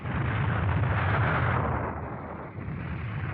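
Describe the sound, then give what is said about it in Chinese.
Gunfire from a battle between guerrilla fighters and enemy soldiers forms a dense, continuous roar of rumbling bursts, loud for about two seconds before easing off slightly and carrying on. “这时候，隐蔽在大路两旁的赵虎和民兵们听到了游击组和敌人战斗的声响。”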